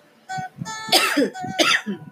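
A person coughs from a morning throat tickle. A short, throaty sound comes first, then two harsh, breathy coughs in quick succession.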